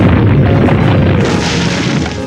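A heavy, rumbling boom plays as the sound effect of an earth-type quake attack in a monster-battle video game, loud and sustained and fading slightly over two seconds.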